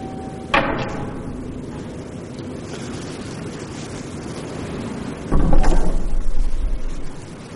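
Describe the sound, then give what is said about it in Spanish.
A door bursts open in a wartime thriller film scene: a sharp bang over a steady background hiss, then later a sudden, louder surge of rough noise with a heavy low rumble. “se dirige a la puerta, que se abre de golpe”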